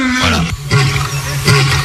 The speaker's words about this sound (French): je voulais une preuve, et donc je veux vous faire écouter le rugissement du lion.